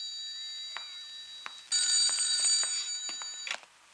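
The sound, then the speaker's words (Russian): A telephone rings with a bright, shrill electric trill lasting about two seconds, preceded by a few faint clicks, with no talk over it. “возьмите, пожалуйста, трубку.”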